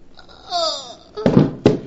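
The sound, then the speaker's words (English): Gunshot in a radio drama, with two sharp, loud bangs close together following a voice. “Even with that gun, you can't keep me, do you hear? I'd sooner die than go on living with you. I'm going, and you're not going to... Oh, you shot...”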